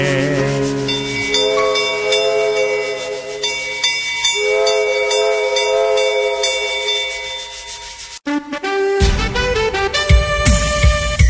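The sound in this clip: A train rolls on with a steady rumble and sustained whistle-like tones, then after a brief break gives way to a busier, noisier clattering stretch at the end.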